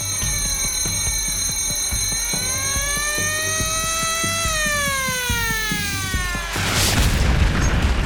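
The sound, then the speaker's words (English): A torpedo strikes a warship: sustained tonal sweeps, first rising and then falling like a wailing alarm, give way near the end to a heavy, rumbling boom. “Nothing can prepare you for the impact of a torpedo for the first time.”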